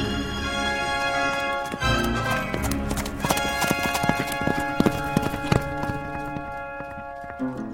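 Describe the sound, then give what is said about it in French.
Hooves clip-clop from a team of fine horses harnessed to escort a prince, the steady rhythmic clopping sounding many times and growing sharper and more frequent after the first few seconds. “Puis, elle fait atteler ses plus beaux chevaux pour escorter son mari.”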